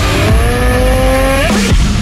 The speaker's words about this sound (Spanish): Hoy venimos en la Heritage de CF Moto, la 700 CLX. Una bestia de moto.